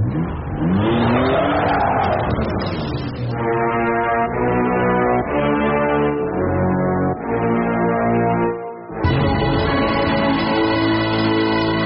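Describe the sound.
A car accelerates hard at full throttle to get away, its engine roaring loud and continuous, the pitch swelling at first and then shifting between steady levels, with no voices.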